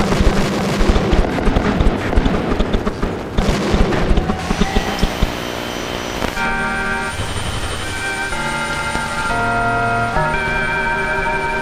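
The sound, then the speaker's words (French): Firecrackers and explosive charges go off in a street in a dense, rapid crackle of many sharp bangs for the first few seconds. The bursts then give way to steadier sustained tones. “j'ai vu des ricochets, les pains d'explosifs, les pétards qui sautent dans la rue. Vous entendez peut-être.”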